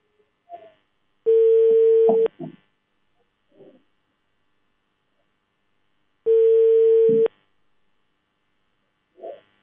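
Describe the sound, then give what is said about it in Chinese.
Telephone ringing tone on the line while a call is dialled to a district labour protection department: two long, steady, mid-pitched beeps of about a second each, separated by a few seconds of silence, with faint brief noises in between. “我们继续来拨打一下他们的电话。来，记者马上拨打一下他们的这个劳动保护部门啊。”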